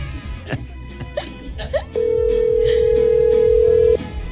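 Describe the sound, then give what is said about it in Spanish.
An unanswered telephone call: a single steady ringing tone lasts about two seconds, after a few brief, muffled sounds. “Juan Carlos no contesta. No contesta Aurisofía.”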